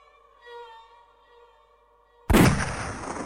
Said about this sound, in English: The crack of the rifle's discharge broke the serenity of the morning